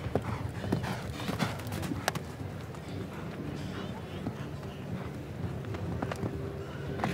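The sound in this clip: Hoofbeats of a horse during a show jumping round: a steady, continuous run of many soft thuds over constant background noise, with a voice talking faintly underneath.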